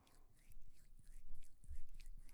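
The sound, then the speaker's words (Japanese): Soft, wet ASMR ear-licking sounds on the other ear, made up of many quiet irregular smacks and slurps with light breathy noise close to the microphone. “次は反対側のお耳を舐めさせていただきます。”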